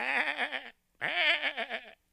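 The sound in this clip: A sheep bleats twice, each call a wavering, quavering bleat of moderate loudness, separated by a brief pause.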